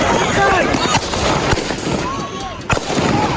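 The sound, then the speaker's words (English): AR-15 rifle gunshots fired at protesters in Kenosha, Wisconsin: a few sharp, loud cracks at uneven intervals over constant crowd noise and shouting voices. “That's the sound of Kyle Rittenhouse's AR-15 rifle going off, shooting protesters in Kenosha, Wisconsin last August.”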